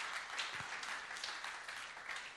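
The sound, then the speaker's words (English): Hand clapping from an audience, faint and continuous, with slight swells and dips in its dense texture. “Would you clap your hands to the Lord if you can, if you've experienced that in your life?”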